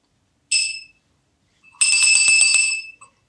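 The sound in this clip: Old cowbells from a mission house are rung from a balcony. A short bright clang is followed by a longer run of several rapid, ringing metallic strikes, loud and clear, with no talk.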